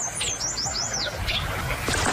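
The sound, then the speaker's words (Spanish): Song of a summer tanager, a migratory North American bird, recorded in a rural area of Cali, Colombia: quick, high, warbling whistled phrases rising and falling over a steady background hiss. “Lo que acabamos de escuchar fue el canto de la piranga carirroja, un ave que fue avistada en el corregimiento de La Buitrera”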